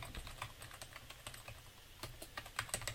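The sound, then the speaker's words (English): Typing a URL on a computer keyboard, many quick, irregular keystrokes tapping faintly in short bursts. “I just type in my URL again.”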